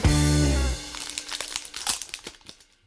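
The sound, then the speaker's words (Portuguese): The crinkling wrapper of a Magic: The Gathering Wilds of Eldraine booster pack is torn open, producing a burst of irregular crackles and rustles that grows, peaks and then dies away into quiet. “abrimos um pacotinho de Magic aqui de Terras Selvagens de Eldraine, hein?”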